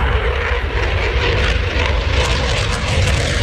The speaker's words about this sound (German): So klingt es, wenn ein Eurofighter startet.